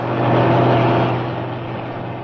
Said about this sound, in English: Didn't fancy that lorry. It didn't look roadworthy to me.